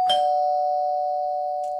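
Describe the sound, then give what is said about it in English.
A Ring Video Doorbell chime sounds a single clear, bell-like tone that rings out and slowly fades over about two seconds, with a faint click near the end. “burglars usually start by ringing your doorbell just to see if somebody's home. This is a product that is so much fun. The Ring Video Doorbell.”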